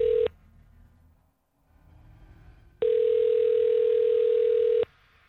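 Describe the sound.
Telephone line tones as a call is placed: a brief tone cuts off, faint low noise follows, then a loud, steady tone holds for about two seconds before stopping.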